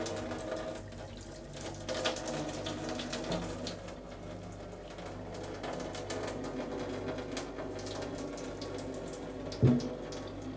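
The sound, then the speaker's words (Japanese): Hot water drains from an instant noodle cup into a sink in a steady, continuous splashing rush that lasts throughout, ending with a brief louder knock near the close. “湯切り口を開けてお湯を流していこうと思います。よし、流します。”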